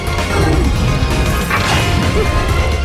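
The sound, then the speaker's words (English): A video game boss smashes a bridge section into a wall, giving loud, sustained crashing and smashing noise. Dense, harsh debris clatter fills the whole clip at an even level, with no talk. “while we're beating him he's trying to uh, he's trying to smash it into the wall to hurt us”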